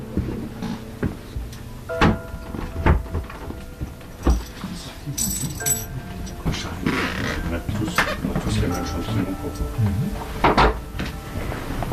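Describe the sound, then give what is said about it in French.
Four funeral home workers close and lift a coffin, making scattered wooden knocks, clunks and mechanical rattles at an uneven pace, with people talking throughout. “Donc là, il y a les quatre employés des pompes funèbres générales qui se mettent autour du cercueil pour le fermer et pour le prendre.”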